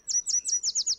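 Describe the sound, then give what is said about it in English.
Northern yellow warbler song: a quick run of about six high, bright whistled notes, each slurring downward, evenly spaced and clear with no other sound. “if it's your first time hearing a northern yellow warbler sing,”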